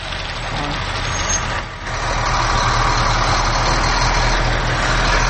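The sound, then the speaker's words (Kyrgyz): Trucks and construction machinery work at a factory building site, producing a steady, loud, low engine rumble that dips briefly near the start and then carries on without a break. “Ал эми артында завод курулушу тынбай жүрүп жатат.”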